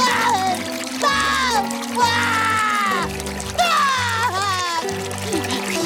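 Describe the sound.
Recorded crying plays from a children's button toy about feelings. A few wailing sobs, each bending downward in pitch, sound over a low, steady backing tone.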